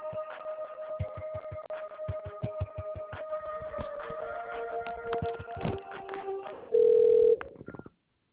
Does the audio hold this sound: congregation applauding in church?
no